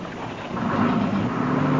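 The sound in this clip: A truck pulling up and slowing down: a muffled, low engine rumble that swells slightly partway through and then holds steady for the rest of the brief moment.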